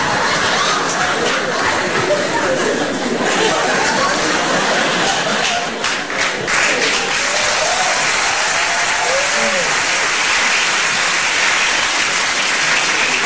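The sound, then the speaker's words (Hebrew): Sustained audience applause after a song at a funeral, a dense, steady patter of many hands clapping throughout, with faint crowd voices beneath. “אין צורך בכפיים, הלוויה.”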